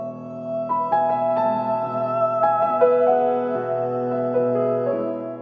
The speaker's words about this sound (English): The last thing I notice, and one of the last things we hear, is a motive in the piano that descends, and it sounds like this.